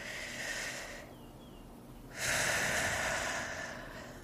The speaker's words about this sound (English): just take a deep breath right now together. Let's do it.